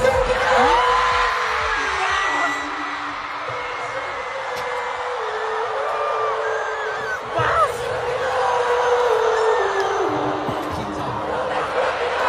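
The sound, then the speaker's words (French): Concert audience roaring and singing along to a chorus, a loud, continuous wash of massed voices with shouts and whoops throughout. “Voilà, visiblement, ça fait plaisir au public, ce refrain, qui est devenu un mème sur Internet.”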